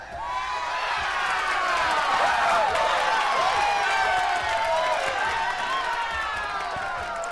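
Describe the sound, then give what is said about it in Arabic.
Loud audience applause with cheering and high whistle-like whoops, held at a steady level across the whole stretch and easing slightly at the end. “استنى ما أديهم سقفة كبيرة قوي.”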